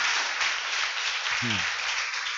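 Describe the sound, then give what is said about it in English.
An audience claps hands in applause during a church service, a steady dense patter of many hands sustained throughout with a short low vocal sound partway through. “We want to give Jesus a big hand clap.”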